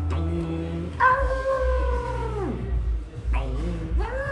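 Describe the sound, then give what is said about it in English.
A voice imitates a dog howling at the daily six o'clock church bells: several drawn-out, tonal howls, the longest sliding down in pitch at its end, with shorter rising howls after. “I used to have a dog that used to bark like to the Angelus bells. So at like 6 o'clock every day, it'd be like,”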